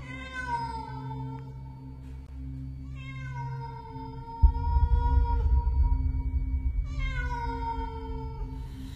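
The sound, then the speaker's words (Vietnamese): Feral cat yowling at night: three drawn-out, wavering calls with a slightly falling pitch, carried over a steady low hum and a deeper rumble. “Ngoài cửa sổ, từ bao giờ vọng lại tiếng mèo hoang kêu lên giữa đêm trường tịch mịch, nghe đến não nào lòng.”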